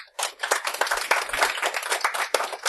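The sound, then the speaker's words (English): Audience applause breaks out as people clap to vote on which science claim they think is fiction: a dense, brisk burst of many hands clapping at once that holds steady for a couple of seconds. “Applaud if you think that's a fiction.”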